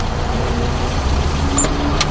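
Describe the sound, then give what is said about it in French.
Engine of an overloaded family car towing a heavily loaded trailer, its axles straining, gives a steady low rumble that holds an even level throughout. “Une voiture familiale tractant une remorque, les deux chargés comme un mulet. Les essieux souffrent et le font savoir.”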